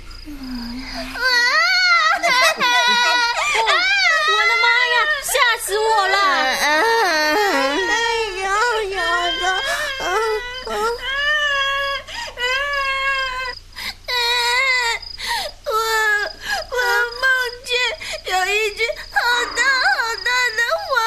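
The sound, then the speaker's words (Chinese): A child cries and sobs almost continuously for about twenty seconds, a loud wailing voice whose pitch wavers and breaks between sobs, with short gasping pauses toward the end. “是小萝卜在哭啊！ 哎呀，一定是做噩梦了！”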